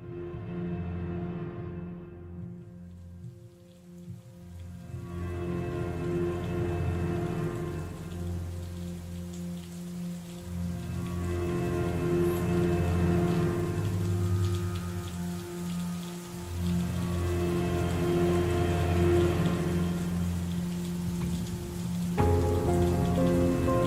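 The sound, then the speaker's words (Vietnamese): Heavy rain pours onto an asphalt road as a dense, continuous hiss that holds steady throughout, with low sustained tones running underneath. “Cơn mưa trắng xóa bất ngờ trút xuống mặt đường nhựa, hơi nóng bốc lên ngùn ngụt.”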